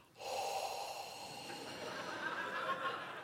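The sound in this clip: A person imitates a breath with one long, airy, breathy sound lasting about three seconds. It is soft and starts suddenly, with no talking over it.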